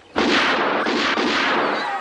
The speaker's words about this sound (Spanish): Se alza y dispara.